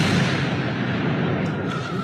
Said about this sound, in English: Near Knoxville, Tennessee, you'll find contestants shooting 200-pound anvils hundreds of feet into the air using gunpowder.